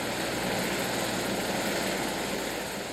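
Aircraft setting down on a hotel roof, a steady, dense engine and rotor roar that holds at an even level throughout.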